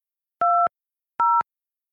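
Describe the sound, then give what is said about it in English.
Two short telephone keypad tones entering a PIN for a conference call line. Each is a clean dual-pitch beep lasting about a quarter second, separated by a brief silence. “Okay, I'm dialing. Welcome to Telelink Conference Pro. Please enter your PIN.”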